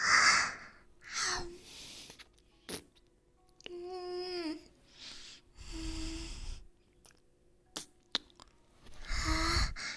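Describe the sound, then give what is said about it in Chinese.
Heavy breathing comes in several loud, airy breaths separated by short pauses. One longer breath in the middle carries a voiced, moan-like tone, and sharp gasps and snorts break up the rhythm. “笨蛋的呼吸是不是沉重起来了？”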